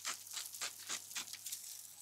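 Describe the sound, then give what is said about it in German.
Cubes of baguette fry in oil in a pan as they toast until crisp, giving a faint, irregular crackling sizzle made of many soft bursts. “Da kommen jetzt diese Brotwürfel rein. Ich habe jetzt so einfach so ein Baguette genommen. Und die werden jetzt auch darin so richtig schön knusprig geröstet.”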